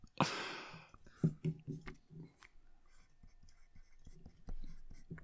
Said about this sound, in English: I'm actually going to erase drinkability and put in Gestalt.